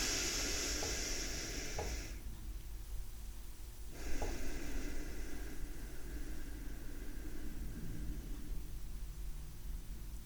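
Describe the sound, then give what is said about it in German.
Slow, deep breathing in and out during a paced breathing exercise, each breath lasting several seconds with no pause between. Long, soft rushes of air form a steady, airy hiss throughout. “Also das sind richtig langsame Atemzüge, ungefähr so.”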